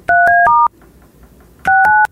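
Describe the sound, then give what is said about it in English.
Touch-tone telephone keypad beeps: a quick run of four loud dual-tone presses, a short pause, then three more in the same brisk rhythm, clean over a faint background. “See how mad he is dialing?”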